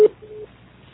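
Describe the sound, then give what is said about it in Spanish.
Voicemail beep tone: a short, sharp beep, then a fainter, longer steady tone, followed by quiet. “grabe su mensaje después del tono”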